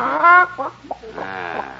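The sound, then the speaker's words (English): A small chicken clucking and squawking in a few short bursts, with a louder squawk near the start followed by softer, broken clucks. “It's just a little chicken. Let me inspect that chicken.”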